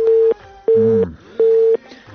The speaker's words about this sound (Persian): تلفون بیخی قطع است